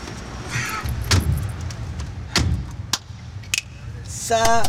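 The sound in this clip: Car sounds: a few sharp, door-like thuds over a steady low engine rumble, then a quick run of rapid tonal chirps at the end.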